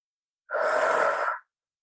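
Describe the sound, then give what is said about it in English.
A single big breath, as in a guided breathing exercise during a tapping coaching session, runs as one steady airy rush lasting about a second, moderately loud and alone with no talk. “we're just going to go ahead and take a big inhale and exhale.”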